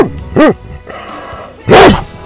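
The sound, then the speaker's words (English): An 83-pound female chocolate Labrador Retriever barks twice, giving two loud, sharp barks with a falling pitch, separated by a quieter stretch of lower noise. “She's already going crazy, ladies and gentlemen. 83-pound chocolate Labrador Retriever.”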